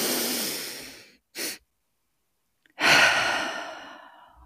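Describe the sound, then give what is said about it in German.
Deep inhale followed by a long, full exhale during a guided breathing exercise: a loud breathy draw of air, a short extra intake, a pause, then a long airy exhale that fades gradually. “Also einatmen, kurz danach und dann lange, vollständig ausatmen.”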